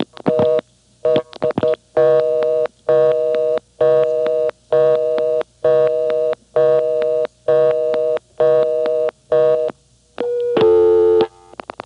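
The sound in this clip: A telephone busy signal repeats many evenly spaced on-off tone bursts in a steady rhythm. A few clicks come before it, and a different steady tone follows at the end.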